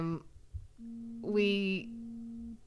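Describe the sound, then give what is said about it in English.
A mobile phone vibrates with an incoming text, giving a steady low buzz that lasts under two seconds. A voice briefly sounds over it, and speech is heard at the start. “someone vibrating. That's you. Is that me? Who's texting me?”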